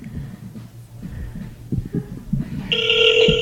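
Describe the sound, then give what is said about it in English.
A telephone ring sounds as a number is called for a magic trick on stage, with a steady electronic ringing tone starting near the end over a low background murmur. “we're going to call a number. We're going to see if they can help us with a magic trick right here on stage.”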